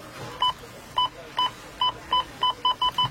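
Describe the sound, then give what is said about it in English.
Beeps from a store checkout scanner: nine short, bright two-tone electronic bleeps, spaced unevenly at first and coming faster toward the end, over a low background hum. “You know it's Rona week when the checkout sounds like this.”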